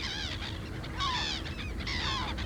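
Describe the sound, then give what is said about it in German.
A parrot squawks in a series of harsh, honking calls, several of them, with the three loudest spaced about a second apart, alone without talk. “Kay ist doch ein Papagei. Yes, Kay is a parrot. And Kay does what birds do.”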